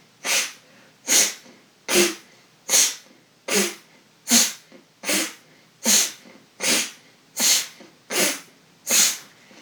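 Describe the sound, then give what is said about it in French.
Breathing through the nostrils during a breathing exercise, heard as a long, even series of sharp, forceful nasal breaths with short quiet gaps between them, each burst a hissy whoosh repeating in a steady, fairly quick rhythm. “Inspirez amplement et vous expirez profondément.”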